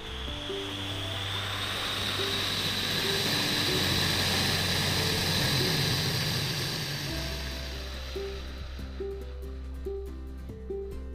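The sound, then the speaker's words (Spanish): An airplane takes off with a broad rushing roar that swells, holds and then fades, heard over a steady, stepping background tune. “Y bueno, el avión va a despegar en 3, 2, 1.”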